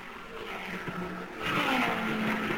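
Race cars roar around an oval track, a 1960s field including Parnelli Jones and Hurtubise; a steady engine drone swells louder about halfway through, with a tone sweeping in pitch as the cars come through the turn.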